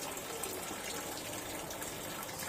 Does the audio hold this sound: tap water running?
yes